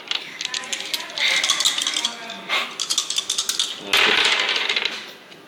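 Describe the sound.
Dice rattle and clatter in a few quick bursts during a tabletop role-playing game: a dry, bright clicking tumble with short pauses between rolls.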